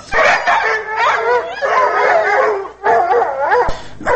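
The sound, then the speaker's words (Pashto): Dogs howling in a loud, wavering chorus of several overlapping voices that rise and fall continuously, broken by a brief pause near the middle, with a sharp yip close to the end. “گوره سپیان راگل”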